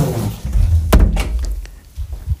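A door is closed at home during a power outage. A single sharp thud lands near the start, followed by a few fainter knocks and rattles as it settles.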